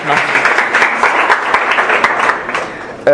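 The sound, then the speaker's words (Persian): An audience at an event claps loudly in a dense, continuous round of applause for a few seconds, with voices talking over it. “تا حالا که بهتون خوش گذشته خوش گذشته یه دست بزنید دیگه”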